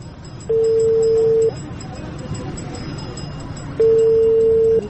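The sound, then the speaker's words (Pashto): Two long, steady telephone tones sound as a call is placed while nearing a village. Each lasts about a second, with a quiet gap between them, over a low background rumble. “صبر یو زنګ ووهم هو دا دی ملک حضرت خان”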